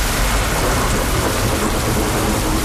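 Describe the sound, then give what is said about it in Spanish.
Heavy rain during a thunderstorm on a city street in Santiago, a steady, dense hiss with a low rumble underneath that holds at an even, loud level throughout, with no voices. “Ya se escuchan las tormentas en muchos puntos de la comunidad.”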